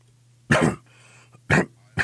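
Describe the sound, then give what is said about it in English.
Three sharp, throaty coughs burst out over a faint steady low hum, the first a bit longer, the next two in closer succession. “Sorry. I just coughed over you and killed your mic.”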